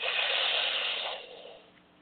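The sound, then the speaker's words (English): A deep breath in during a guided breathing exercise makes a long, airy hiss. It holds steady for about a second, then tapers off and fades, with no talk over it. “Inhale again. Now exhale. One more time. Breathe in.”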